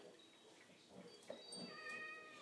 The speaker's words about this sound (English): What does he want now? I thought you let him out. These cats get on my bloody nerves. I think he's hungry.